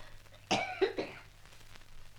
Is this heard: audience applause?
no